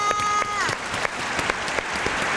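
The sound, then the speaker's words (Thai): Audience applause for a young contestant in a word-spelling quiz show: scattered, crisp clapping from a modest crowd, holding steady throughout, with a voice briefly heard near the start. “ปรบมือให้น้องมีหน่อยค่ะ”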